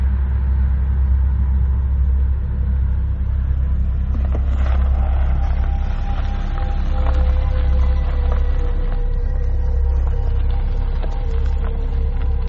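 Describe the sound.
Steady low engine rumble from a Hyundai Sonata running almost out of gas as it pulls over onto a dirt road in Texas, droning evenly without breaks and with no talk.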